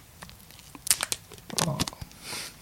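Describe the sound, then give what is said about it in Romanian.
Plastic foil wrapping on a boxed item crinkles against the microphone in crisp crackling bursts, with a soft hissy swell of rustling at the end; no one speaks. “Ține-l acolo, să audă, să audă folia asta pe microfon, așa.”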